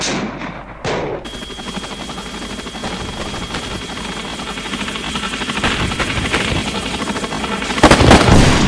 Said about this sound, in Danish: en enemy helikopter, den tager man, når den er i midten med venstre kontrol. Den skal kun have et skud.